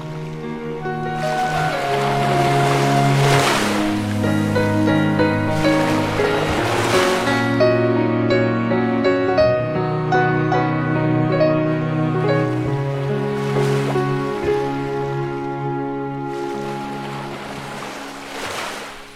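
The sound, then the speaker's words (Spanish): Distant sea waves at a port swell and wash in a few broad surges over a sustained, droning musical background, with no voices. “Suena, resuena el mar lejano. Este es un puerto.”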